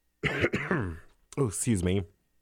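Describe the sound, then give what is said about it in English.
Two loud bursts of harsh, voiced coughing with some throat clearing, separated by a short silent gap. “I'm like been coughing a lot.”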